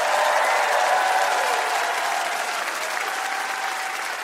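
A studio audience at a live trivia game show applauds guest astronaut Chris Hadfield, dense, steady clapping that stays loud throughout and eases only slightly toward the end, with no talking.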